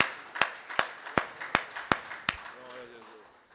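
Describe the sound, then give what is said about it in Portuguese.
A church audience claps in a steady rhythm, six sharp, evenly spaced claps in a row, and then a voice starts speaking. “Vamos aplaudir ao Senhor.”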